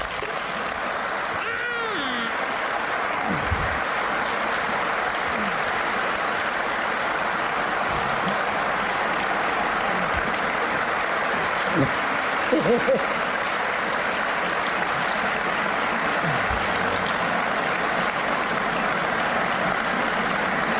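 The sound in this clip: Audience applause fills the whole stretch, a dense, even patter of many hands clapping with no clear break, staying at a steady level for around twenty seconds.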